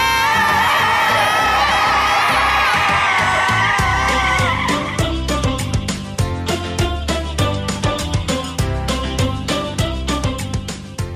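A car brakes hard in a curve, its tires letting out a loud, wavering squeal for about five seconds, followed by a steady series of rhythmic pulses.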